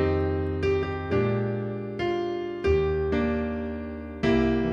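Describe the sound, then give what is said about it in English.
A piano plays a melody over a plain dominant seventh chord. About six notes or chords are struck at an unhurried, uneven pace, and each one rings out and slowly decays before the next. “Just a regular dominant seventh chord over that chord.”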